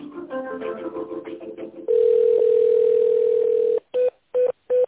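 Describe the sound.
Telephone tones during a call transfer: brief mixed tones give way to a loud, steady single-pitch tone held for about two seconds, followed by three short, evenly spaced beeps.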